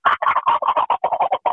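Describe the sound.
A human voice imitates the gobble of an Osceola wild turkey, said to sound like an Eastern's gobble, as a fast rattling run of about a dozen short throaty syllables.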